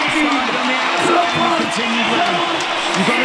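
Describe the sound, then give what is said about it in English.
Rugby crowd at a South Africa match cheering a prop as he is substituted off, a sustained mass of crowd noise with raised voices and whoops running through it. “Crowd enjoyed Ox's performance. Yeah, they really have. They got a good appreciation for props, scrummaging props, so probably local hero.”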